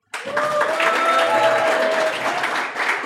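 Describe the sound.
A live audience in Nairobi claps at the launch taping of a new show. The applause bursts in suddenly after a moment of silence and stays loud and dense, with a slight dip near the end.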